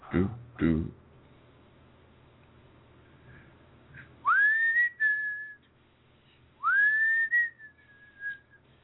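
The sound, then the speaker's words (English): Loud human whistling: two clear whistled notes, each sweeping sharply upward and then holding a steady high tone, separated by a quiet gap and preceded by a couple of brief low bursts. “if you're going to whistle that loud”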